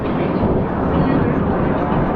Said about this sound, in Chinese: 我们国家第二款隐身战斗机从我的头顶经过